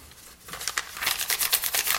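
A piece of paper being pulled apart, with crinkling, crackling tears that start softly and grow louder in rapid, uneven bursts.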